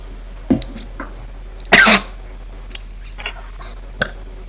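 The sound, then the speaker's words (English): Coughing and throat clearing from someone trying to dislodge a crouton stuck in the throat: one harsh, loud burst in the middle, with a few shorter coughs and small throat clicks spread around it. “I'm going to try to get this pesky crouton out of my throat.”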